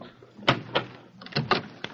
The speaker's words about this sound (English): Please open the door.